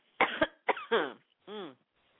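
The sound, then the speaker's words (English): Person coughing and clearing their throat to get rid of a tickle: a couple of sharp coughs, then rougher throat-clearing bursts and a final drawn-out, voiced grunt, with no talk. “I want to make some really horrible noises here to get this tickle out of my throat”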